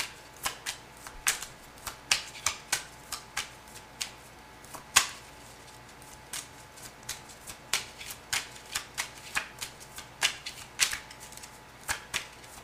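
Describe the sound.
Tarot cards being shuffled during a reading: many crisp, papery snaps and riffles come in an uneven but continuous rhythm, fairly quiet, with no voices.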